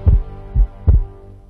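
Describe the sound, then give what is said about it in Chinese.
Heartbeat: three deep, low, muffled thumps in an uneven rhythm, heard alone over a faint steady hum. “听见你的心跳”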